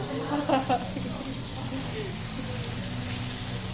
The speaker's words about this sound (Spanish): Está haciendo un guiso de pollo con arroz, está haciendo una base de cebollas.